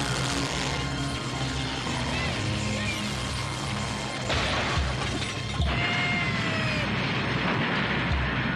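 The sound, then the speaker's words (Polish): Cartoon sound effect of a washing machine exploding in an animated film, a dense, continuous wash of clattering, grinding mechanical noise with whistling tones, staying loud throughout with a brief shift partway through. “Wybuchła pralka wydobywająca zło z dusz.”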